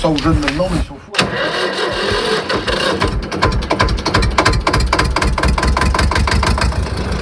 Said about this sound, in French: On a toutes les marques un peu, des tracteurs qui fonctionnent, d'autres qui fonctionnent moins bien. La plupart démarrent quand même au quart de tour. La preuve.